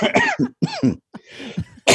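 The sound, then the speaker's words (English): Coughing fit from choking on a needle: several harsh, irregular coughs mixed with strained, voiced gasps and brief silent catches of breath, loud throughout. “I choked on the needle thing.”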